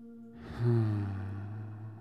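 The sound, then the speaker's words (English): A deep breath let out as a low, voiced sigh that swells quickly and then trails off gently over about a second and a half, heard alone without talk. “Let's take a deep breath.”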